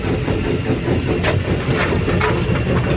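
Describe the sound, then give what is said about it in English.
A steam locomotive works hard under full steam, hauling about 150 tonnes of train: a steady, loud, low rumble of engine and wheels, with a few brief hissing bursts of steam on top. “We've got a full head of steam, about 150 tonnes on the rear,”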